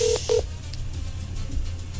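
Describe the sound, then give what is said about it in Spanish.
Telephone keypad dialing tones as a caller places a call: a few short, steady electronic beeps at the start, then near silence with a low hum. “Listo, ya le voy a marcar. A ver qué pasó.”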